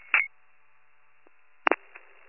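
Telephone keypad tones as a phone is dialed to call another county, a few short dual-tone beeps separated by near silence, with a longer tone at the end.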